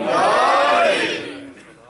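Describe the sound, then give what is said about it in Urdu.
A crowd chants the Naara-e-Haidari slogan during a religious sermon. The massed shout of many voices is loud at once, holds, then fades away over about two seconds. “نعرہ حیدری،”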